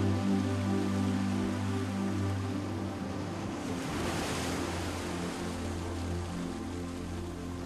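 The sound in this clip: Ocean waves wash onto a sandy beach as the tide falls, a continuous broad hiss of surf that swells gently midway, with steady sustained tones running underneath.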